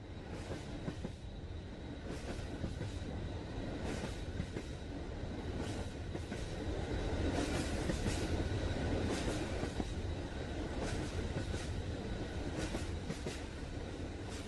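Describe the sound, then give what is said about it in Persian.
A train moving along the rails: a steady rolling rumble with many rhythmic clickety-clack beats and light wheel squeal, fairly faint and even throughout. “صدای حرکت قطار یا همون ریل.”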